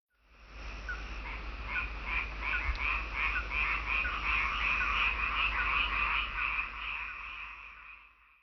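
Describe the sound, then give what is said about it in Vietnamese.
A frog croaking in a steady series of many rapid, rasping pulses that keep an even rhythm. The calls swell in and hold at a moderate level before fading at the end. “Đây là tiếng ếch kêu.”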